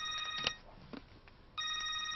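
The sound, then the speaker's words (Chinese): Telephone ringing at home: a bright, high electronic trill in two bursts, one at the start and another near the end, separated by a quieter gap with a few faint knocks. “周运年正在家里练毛笔字，电话响”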